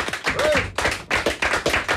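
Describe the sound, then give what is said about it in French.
Studio guests, blues musicians at a radio show, applauding themselves: sparse, sharp hand claps from a few people, loud and irregular, with a short pause midway. “Merci d'avoir été là aujourd'hui, vous pouvez vous applaudir aussi.”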